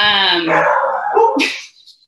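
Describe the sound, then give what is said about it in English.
A dog gives a loud, drawn-out bark-howl that slides down in pitch, then trails off into a few faint, short yips. “sorry for the dogs barking in the background”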